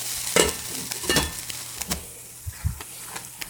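A spoon stirs risotto in a pan just after a ladle of stock goes in, making a series of wet scraping and sloshing strokes in an uneven rhythm, moderately loud.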